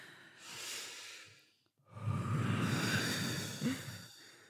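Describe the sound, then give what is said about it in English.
People breathe together: a soft, airy inhale, a brief pause, then a longer, louder, rushing exhale that fades out. “So let's all breathe together.”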